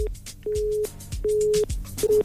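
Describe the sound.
A phone line tone sounds on a call-in line after a caller fails to connect. Steady mid-pitched tone bursts repeat about four times, broken by short bursts of line noise.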